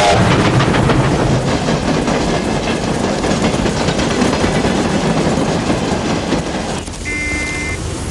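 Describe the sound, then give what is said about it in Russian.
A long freight train rolls past a level railway crossing, with a steady, loud clickety-clack of wheels over rail joints and a broad rushing roar that continues throughout. “Идет товарный поезд.”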